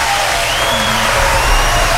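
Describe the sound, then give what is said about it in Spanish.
An audience applauds: loud, dense clapping that holds steady for the whole stretch, with no clear pauses. “Aplauso, aplauso, como siempre.”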